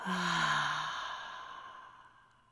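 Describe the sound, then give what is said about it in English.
A deep breath out during a guided meditation: one long, breathy sigh that starts strong and fades steadily over about two seconds, heard alone. “Take a deep breath in and exhale, let it all go.”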